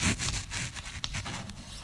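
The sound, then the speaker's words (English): Writing on a board makes soft, scratchy strokes: a few short rubbing scrapes at low level, with no talk over them. “Let me write it down. If you don't remember it, I got to write it down because it's that important. You remember what it looks like on the board.”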